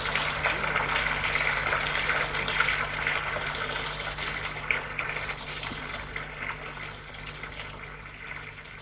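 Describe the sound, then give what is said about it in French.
Water poured from a jug into a bathtub makes a steady, continuous splashing rush that holds an even level throughout, with no voices. “il prend un broc et remplit d'eau la baignoire.”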